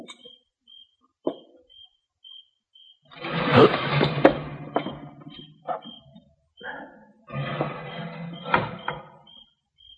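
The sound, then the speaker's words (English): A screen door jerked open: two harsh bursts of rattling, scraping noise with sharp knocks, each about two seconds long. A thin, high chirp pulses steadily in the background. “When I jerk the screen open, I'm going to go in fast.”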